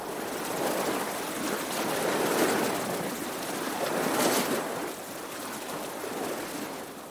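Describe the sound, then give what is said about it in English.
Sea waves wash in a continuous rushing surf, swelling louder twice and then settling to a steadier, softer hiss, with no voices. “This is what I hope to remember. It's the sea.”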